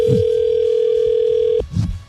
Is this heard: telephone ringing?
yes